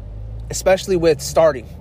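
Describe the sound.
Low, steady engine and road rumble inside a car runs beneath a person talking close to the microphone, the hum sitting quietly under the voice throughout.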